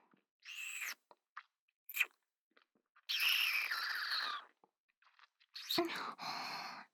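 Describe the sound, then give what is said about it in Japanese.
Wet sucking and slurping mouth sounds from a roleplay of drinking blood from a bleeding finger. Several short, close bursts of smacking and crunchy suction are separated by pauses, with a longer sustained stretch in the middle. “もう、染み出してきますね。全部吸ってあげますから。”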